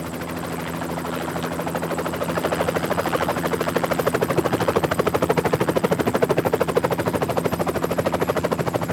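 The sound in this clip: A helicopter's rotor gives off a steady, rapid chopping throb under a continuous engine drone. After the first couple of seconds it grows louder and holds that level to the end.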